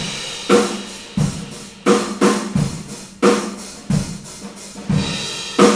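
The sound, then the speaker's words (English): A drum kit captured on a room microphone plays a steady groove of many evenly spaced hits, with a deep kick and sharp snare strikes. Each hit carries a spacious, ringing tail. “So we took the room track, which sounds like this.”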